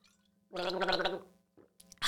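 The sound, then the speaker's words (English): A person gargling: a short, bubbling, voiced burst lasting under a second, with a faint steady hum beneath and a brief, softer sound following near the end. “I was going to do a gargle, but.”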